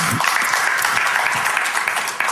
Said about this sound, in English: Give them a round of applause. That was great.